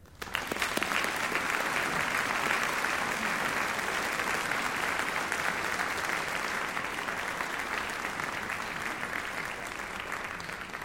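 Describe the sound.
An audience in Omaha applauds to welcome a speaker, a dense, even wash of clapping that starts abruptly, stays loud and steady throughout, and tapers only slightly toward the end.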